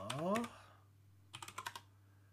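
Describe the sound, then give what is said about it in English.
Typing on a computer keyboard: a short, quick burst of about six crisp key clicks, faint and set against near-quiet, coming after a brief louder sound at the start. “Would help if I could type correctly.”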